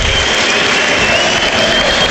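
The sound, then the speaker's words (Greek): Applause and crowd noise from the officials' stands during a football match at OAKA stadium, a loud, even wash of clapping and hubbub with no distinct voices. “ενώ υπάρχουν χειροκροτήματα στα επίσημα του ΆΚΑ”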